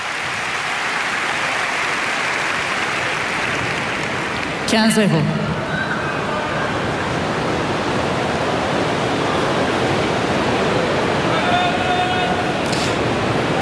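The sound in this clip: Rain pours onto spectators seated at the top of a partly roofed tennis stadium, a steady, dense hiss of falling water with a brief sharper burst partway through.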